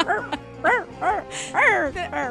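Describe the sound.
A dog vocalizes in a quick series of short, tonal yips and whining barks, each swooping up and down in pitch, with brief gaps between the bursts.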